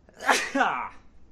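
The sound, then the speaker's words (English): A single loud human sneeze bursts out in two quick parts, a sharp breathy onset followed by a voiced, falling release, then dies away into quiet. “I've been sneezing for like a week, but I'm not even sick.”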